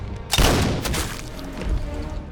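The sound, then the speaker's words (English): A rifle gunshot as a sniper fires at a lumbering creature advancing on a building: one loud, booming shot with a long rumbling decay, followed by another fainter burst. “The sniper's bullet hits Nemesis, but he strides on unharmed. The sniper, who shoots on target again, Nemesis keeps coming.”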